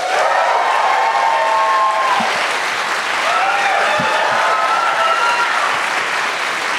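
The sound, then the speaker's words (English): Audience applause and cheering at a stage celebration marking ten years of the comedy character Stephen Toast: sustained, loud clapping with whoops and cheering voices rising above it, unbroken throughout. “Should we give another cheer for Matt Berry,”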